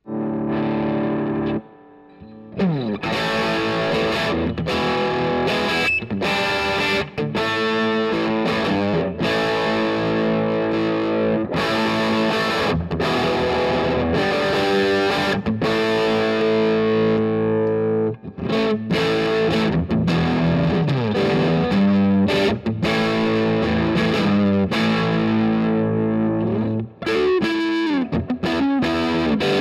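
Distorted electric guitar with push-pull pickups flipped between series and parallel wiring, played loud and continuous with chorus and effects, strummed chords and riffs ringing out with brief gaps and shifts in tone.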